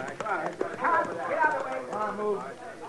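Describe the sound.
Horses' hooves clopping in a steady beat during a Western scene with horses and a wagon, while men talk over them.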